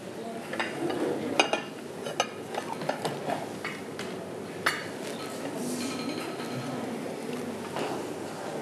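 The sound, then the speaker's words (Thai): Four ceramic rice plates are set down one after another on a table, giving several sharp clinks and knocks over a steady background hiss. “นําจานนะครับเป็นจานข้าวมาวางเลยครับทั้งหมดอยู่4ใบนะครับก็จะวาง”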